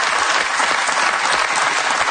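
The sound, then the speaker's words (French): Audience applause fills the whole stretch as a dense, steady clapping roar at an even loudness, with no voices on top. “je sais qu'il y a des jeunes femmes qui vous regardent, qui vous applaudissent, comme ça.”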